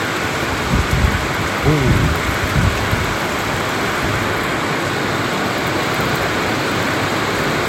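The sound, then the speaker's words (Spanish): Thunder rumbles low beneath heavy rain during a night thunderstorm with lightning, the deep rolls coming in the first few seconds over a constant, dense hiss of rainfall that continues steadily throughout. “ahí se sintieron los truenos en el fondo”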